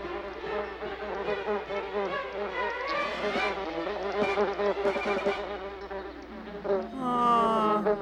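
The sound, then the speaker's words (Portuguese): A bee buzzes in a steady, wavering drone that fills the whole clip and swells slightly toward the end. “Ah, uma abelha! Abaixa!”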